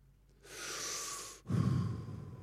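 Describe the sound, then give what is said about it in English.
Breath pushed out from the midriff: two long, breathy exhalations one after the other. The first is a soft, airy hiss and the second is stronger and more forceful. “Just put your hand here on your midriff. Just go. That's pneuma. That's breath.”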